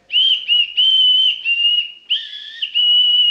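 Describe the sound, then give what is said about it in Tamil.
A whistle is blown in a series of shrill, high, warbling blasts separated by very short breaks. The pitch wavers slightly within each blast, and no voices are heard. “விசில முழுங்கிட்டு என்ன பாட்டு?”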